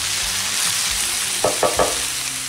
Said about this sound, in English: Mushrooms and onions. Asparagus in the oven. Still stirring her up here. Starting to get a little golden-y.